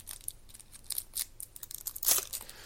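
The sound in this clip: A pack of football trading cards is torn open with faint crinkling and tearing bursts, then a louder rip near the end.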